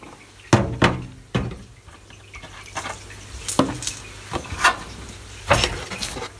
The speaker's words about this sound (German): und jetzt haben wir hier noch einen Teil Schrauben, die sind aber fürs Gehäuse dann von außen. So, die nehme ich da mal raus.